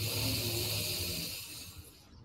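A soft breath drawn in through the nose, heard alone as a quiet, airy hiss that is strongest at the start and fades away over about two seconds.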